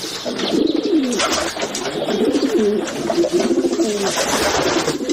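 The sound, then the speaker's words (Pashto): Pigeons coo among ruined, looted workshop buildings where they have built nests. Several birds keep up a steady, overlapping chorus of low, rolling coos for the whole stretch, with no talk. “ودانۍ کندوالی سوي او اوس شنو کوترو پکې ځالې جوړې کړې دي.”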